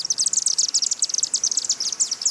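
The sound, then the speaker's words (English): High-pitched chittering of chimney swifts nesting in the chimney of a 91-year-old home: a rapid, dense run of many shrill chirps throughout, with no voices. “The Rempelongs have chimney swifts living in the chimney of their 91-year-old old tuxedo home. They suspected something was up when they started hearing the high-pitched chittering sound this spring.”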